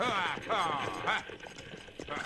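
Clip-clop of horses pulling a stagecoach as it is brought to a stop, with rattling, creaking mechanical sounds of the coach alongside the hooves.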